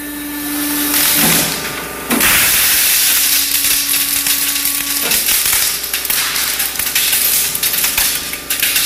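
Dense bursting and crackling from a 23-foot length of bubble wrap running through a large industrial machine with warning labels, loud and continuous with a steady hiss and a faint tonal hum underneath.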